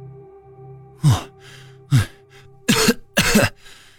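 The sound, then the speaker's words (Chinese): Four harsh coughs from a pale-faced person, spaced unevenly, with the last two longer and rougher, over a low steady hum. “江瑶面色惨白地咳嗽着”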